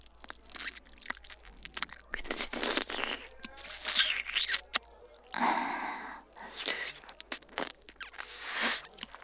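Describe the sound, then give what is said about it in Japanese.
Wet lips suck noisily against an ear in close ASMR style, producing irregular bursts of moist smacking and slurping. The bursts are soft, separated by quiet gaps, with a few louder, longer pulls in the middle and toward the end. “こうして音を立てて吸い付くのも”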